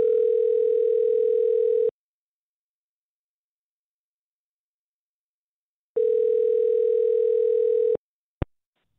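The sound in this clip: Telephone ringback tone plays while a call is placed: two long, steady buzzing rings separated by a long silence, then a short sharp click.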